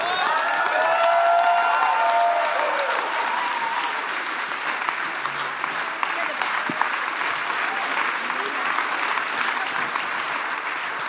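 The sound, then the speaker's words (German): An audience claps and cheers to welcome a pastor at a church gathering in K21. The applause is dense and steady, slightly louder at the start and easing a little, with some cheering mixed in. “You, are you cheering for Canada?”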